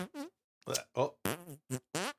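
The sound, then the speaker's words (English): Fart noises: a run of six short, buzzy, blurting bursts with brief gaps between them, moderately loud and alone. “fart noises.”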